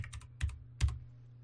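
Computer keyboard clicks while a web address is typed: a few quick, faint keystrokes come in short clusters with brief pauses between them.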